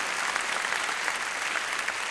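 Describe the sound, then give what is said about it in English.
An audience applauds at a concert, thanking the sound and stage crew. The clapping is dense and continuous, holding a steady level throughout with no voices. “How about a round of applause for our sound crew, Wes and Chris”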